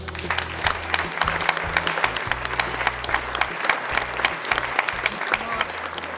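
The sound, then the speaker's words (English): Applause from an audience welcoming a speaker onto a stage: dense, steady clapping that holds an even level for about six seconds without a break. “A lot of people are thanking. Yeah, you can applaud. That's fine.”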